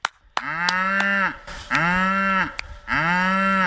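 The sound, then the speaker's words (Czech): Cows and calves mooing on a farm: three long, loud, low moos in succession, separated by short pauses, with no talk. “Ne, bík ne, zatím běží krávy a telata.”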